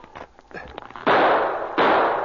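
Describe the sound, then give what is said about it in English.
Gunshots fired by men among the trees: two loud, sharp blasts with rough, decaying tails, the second following the first within a second. “The men among the trees showed themselves for the barest second, and they fired.”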